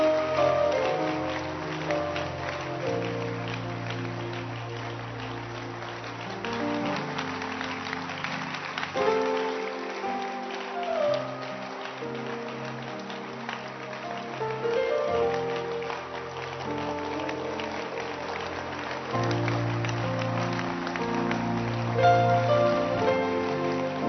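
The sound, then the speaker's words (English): A church audience claps continuously over sustained music. The wash of clapping stays steady and moderately loud throughout. “I really like the way you are clapping. It shows that life has entered you.”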